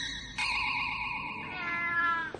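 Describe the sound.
A kitten gives one drawn-out, high, tonal meow that wavers slightly and tapers off at the end, with no talking.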